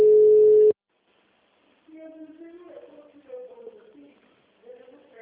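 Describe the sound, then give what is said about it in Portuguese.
Ringback tone of an outgoing telephone call: one steady, mid-pitched tone lasting under a second, then a brief silence before a voice begins talking. “Tá chamando, vamos ver se é ela, né?”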